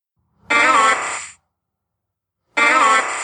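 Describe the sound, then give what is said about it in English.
The cry of Oddish from a Pokémon video game sounds twice: a buzzy, synthesized squeal rich in harmonics, each call lasting about a second and separated by silence. “Oh, it's Oddish. Yep. Well done. Good job, guys. And that was Pokemon What's That Sound?”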